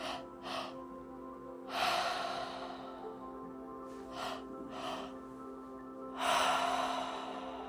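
Deep, forceful breathing during a breathwork session for stress release: a few loud whooshing inhales and exhales in an uneven rhythm over a steady low tonal drone, with no talking.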